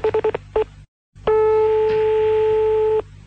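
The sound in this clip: Telephone line tones after a caller hangs up. Five quick beeps come first, then a brief silence, then one long, steady, mid-pitched electronic tone that holds for nearly two seconds before cutting off.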